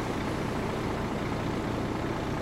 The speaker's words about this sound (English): Arthur, you went to the wrong truck. This one just pulled up.